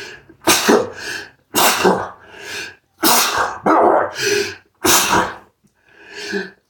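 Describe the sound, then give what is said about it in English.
Sneezing comes in a series of sharp, loud, breathy bursts separated by brief pauses, with several explosive blasts in quick succession. “Oh, damn, I never sneezed on the podcast before.”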